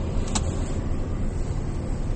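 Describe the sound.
Car driving on the road: a steady low rumble of road and engine noise continues throughout, with a brief hiss early on and no voices.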